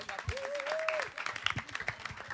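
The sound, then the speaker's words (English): Audience applause for a group of women singers, a dense patter of many hands clapping steadily throughout, with a thin voice-like tone gliding above it early on. “Wow, ladies, fantastic job. Great. Let's clap for them again, too.”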